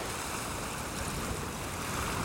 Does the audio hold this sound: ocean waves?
yes